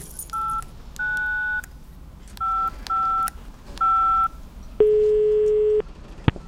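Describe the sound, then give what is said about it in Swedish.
A phone number being dialed on a touch-tone keypad: five clear beeps of uneven length with short gaps, followed by a longer, lower steady tone and a single sharp click. “Jag måste ringa henne.”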